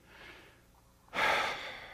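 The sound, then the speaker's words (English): Audience members taking a deep breath: a soft, faint breath followed by a louder rushing breath that tapers off, with no talk over it. “I'm going to say, everybody just take a breath.”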